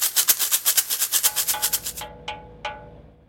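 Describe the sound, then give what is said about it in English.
Rattling swishes from a homemade shaker, a plastic toy filled with buttons, shaken in a quick even rhythm of many pulses, then two separate single shakes with a ringing tail. “Another thing I love to do is make shakers out of different things. This is some kind of a plastic toy, and it's filled with buttons, and it sounds like this.”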